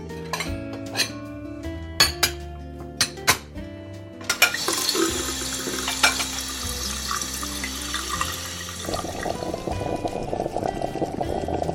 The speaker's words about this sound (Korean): 시끄러워서 잠 안 오지? 나 지금 흰죽 끓이고 있는데 다 돼가니까 이거 먹고 자.